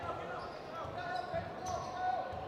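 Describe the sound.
A basketball being dribbled on the court during a high school boys' game, a few dull, low thuds at a loose rhythm under continuous background noise.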